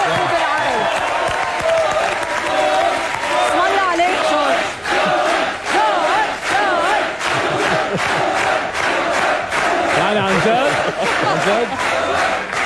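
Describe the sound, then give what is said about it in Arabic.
Audience applause mixed with loud crowd cheering, a sustained wall of clapping and shouting voices that holds at full strength for the whole stretch. “لا بس الزقفة بتستاهلوها انتو الجمهور عن جد.”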